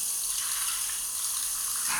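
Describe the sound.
Shower water spraying: a steady, bright hiss of running water, unbroken throughout, with no voices.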